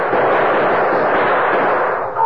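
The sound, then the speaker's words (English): Gunfire in a night-time shootout on a dark street outside a bank: a dense, loud, continuous roar of shots with no separate bangs standing out, dipping briefly near the end. “But he kept on shooting, slowly, deliberately, making sure every bullet found its mark.”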